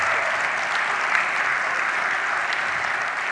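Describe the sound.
Applause from a crowd of people at a daylong event, clapping for the team and volunteers who ran it: a dense, steady wash of many hands, fairly loud and even from start to finish, with no voices over it.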